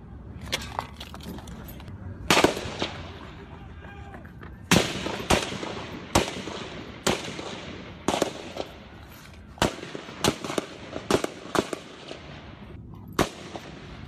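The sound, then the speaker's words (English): Gunshots from the 14 June 2017 shooting attack on Republican lawmakers, a gun battle between Capitol Police and a gunman with a rifle: many sharp, loud cracks, some single and some in quick clusters, spread irregularly with short pauses. “It was a gun battle. I mean, members of Capitol Police up against somebody who, from what I've read, there are all these reports it's an M4.”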